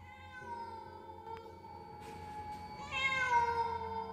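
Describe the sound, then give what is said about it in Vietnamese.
A black cat meows with a drawn-out, tonal cry that holds steady, then swells louder and brighter toward the end, alone without talk. “Đột nhiên có tiếng méo một cái vang lên, ánh đèn dầu lại lập lòe phát sáng.”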